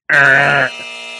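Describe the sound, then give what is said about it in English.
A buzzer sound effect signalling a mistake: a loud, harsh, buzzing tone held for about half a second, then dropping to a quieter, lower tail that lingers briefly. “We also got a buzzer sound. If we ever make a mistake, Troy can actually add this”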